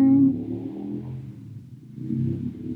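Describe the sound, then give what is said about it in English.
A loud car revving outside gives a deep engine rumble that eases off partway through, then swells again toward the end. “Sorry, there's a loud car. Vroom, vroom.”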